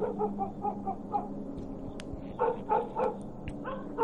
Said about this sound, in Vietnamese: Ở đằng sau, con chó mực vẫn cứ sủa lên inh ỏi liên hồi.